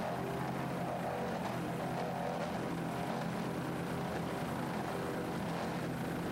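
Engine roar of a 38-foot Fountain racing powerboat under throttle, a steady, dense mechanical drone that stays loud and even throughout with no talk.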